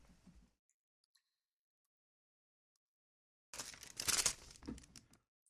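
A paper envelope is handled, giving a quiet burst of crinkling and rustling that lasts under two seconds after a long near-silence.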